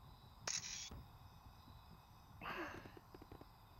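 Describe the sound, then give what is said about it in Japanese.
Faint camera shutter sounds as a photo is taken: a sharp click carrying a brief high whine, then a second, noisier mechanical burst a couple of seconds later. “ほら観念して、笑って笑って。撮るね。”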